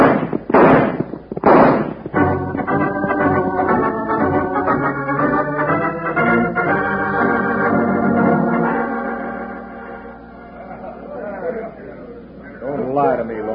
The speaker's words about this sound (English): Start shooting.